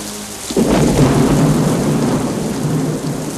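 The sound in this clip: Rain and thunder over a muddy town street at night: a sudden loud crack of thunder breaks in after a quiet start, then rolls into a sustained, heavy roar of rain and rumbling.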